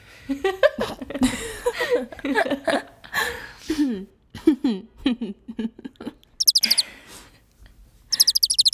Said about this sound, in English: I'm not listening to that bird chirp in my ear anymore.